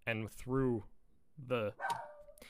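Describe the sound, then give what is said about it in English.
A pet dog barks in the background, sending a few short, sharp barks over and between a person talking in the foreground. “I apologize for my dog barking in the back.”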